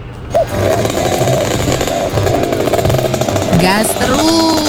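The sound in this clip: The engine of a rare old motor vehicle revs hard in Jakarta. It is rough and loud enough that it would likely fail an emissions test. A gritty, sputtering rumble holds throughout, with pitch rising near the end as the revs climb.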